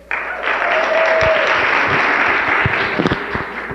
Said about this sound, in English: I think the child deserves a big round of applause.